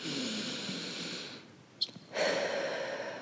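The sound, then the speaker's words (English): Deep breaths drawn into the belly during a guided relaxation exercise: a long, airy breath, a short quiet gap with a faint click, then another long, steady rush of breath, alone with no talk. “So take a couple of deep breaths into the belly.”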